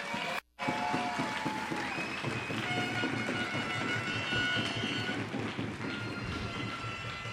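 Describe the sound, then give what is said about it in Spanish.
Audience applause at a church gathering: dense, sustained clapping that fills the whole clip at a steady level after a brief gap near the start. “Dale un fuerte aplauso al que todo lo puede.”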